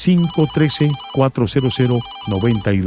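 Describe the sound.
A telephone rings with an incoming call, a ringtone of short, pitched electronic notes in repeated bursts separated by brief gaps.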